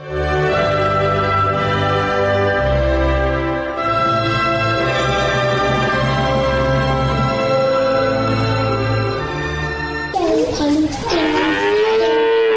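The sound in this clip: Cattle lowing in a cow shed: long, deep harmonic moos that run almost without a break, with a higher, wavering call near the end.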